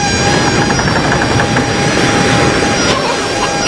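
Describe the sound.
A ship's engine drones steadily at sea in a dramatized voyage to the Sultanate of Sumbawa. The rumble is loud and continuous, with a faint, even mechanical whine layered over it.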